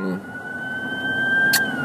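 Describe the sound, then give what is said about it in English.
An ambulance siren gives a thin, steady high wail that holds nearly level throughout over a low background rumble. “sorry, there's a little sirens going on, ambulance time.”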